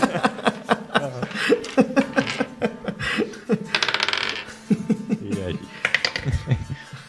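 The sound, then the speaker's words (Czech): Dice rattling and clattering across a table for an initiative roll in a tabletop role-playing game, a short busy burst in the middle amid laughter and chatter from the players. “Hoďte na iniciativu.”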